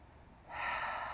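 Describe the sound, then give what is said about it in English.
A single deep breath in during a guided breathing exercise: a soft, airy rushing hiss that starts partway through and swells steadily, quiet and heard alone. “So we're going to breathe in. Hold it in for four.”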